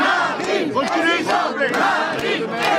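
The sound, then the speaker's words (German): A crowd of supporters cheers and shouts at a political campaign rally in a small-town market square in France, with dense, overlapping voices that stay loud throughout and rise in a few sharper shouted bursts. “Die auf dem Marktplatz des Städtchens La Flèche versammelten Anhänger von Marine Le Pen bereiten ihr den gewünschten Empfang.”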